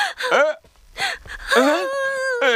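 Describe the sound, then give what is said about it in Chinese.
A woman cries, distraught over her child getting into trouble, with loud, wavering wails and whimpering sobs broken by sharp gasps, the pitch sliding up and down between breaths. “你别哭啊！”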